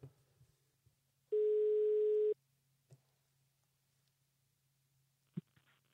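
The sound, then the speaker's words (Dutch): A single ringback tone plays as a phone call is placed to someone. One steady, even-pitched electronic beep lasts about a second over a faint low hum, with a few soft clicks before and after. “laten we hem even bellen en, en kijken wat hij zegt”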